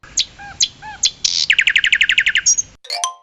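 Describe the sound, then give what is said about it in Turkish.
Bird chirping: a few separate high, sharp chirps, then a quick run of many short rapid notes and a brief closing call, loud and alone with no voices. “Kuş.”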